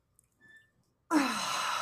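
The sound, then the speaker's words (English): Deep breath taken together by people: after nearly a second of near silence with faint small sounds, a loud, airy rush of breath starts abruptly and continues steadily to the end, with no speech. “Should we take a deep breath together? Let's do it.”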